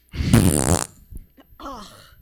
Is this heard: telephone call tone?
no